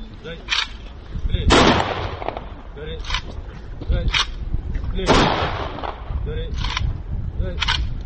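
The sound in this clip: Soldiers fire a military rifle volley salute at a funeral burial in Karakol. A few sharp, cracking bursts stand out over steady talking.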